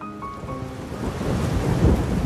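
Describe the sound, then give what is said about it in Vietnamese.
Thunder rumbles low and heavy over steady rain on a rainy afternoon in Hanoi; the deep roll swells toward the end while the patter of rain continues throughout. “Hà Nội, chiều mưa”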